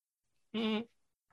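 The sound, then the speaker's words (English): A single loud goat bleat, a wavering, nasal, harmonic cry lasting about a third of a second and heard alone, with only faint stray noise around it. “we found two goats. Oh, oh, those aren't our goats.”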